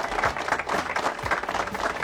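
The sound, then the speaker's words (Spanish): Applause for a racer's good weekend of results, a steady, continuous patter of clapping from a group at moderate loudness throughout, with no talk over it. “un aplauso para Guille, que lo... le ha ido bien este fin de semana”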